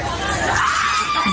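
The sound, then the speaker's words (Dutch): American girls screaming with excitement after getting back a lost white sneaker following a small train ride, a loud, sustained, high-pitched shriek. “Schreeuwen wel veel, hè, die Amerikanen.”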